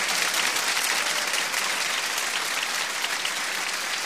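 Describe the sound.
Steady applause from an audience clapping hands, dense and continuous at an even loudness throughout, with no voices rising above it.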